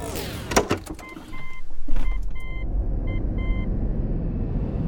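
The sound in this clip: A car drives off, starting with a few clicks and short electronic beeps. Low rumbling engine and road noise then builds and holds at a steady, moderate level.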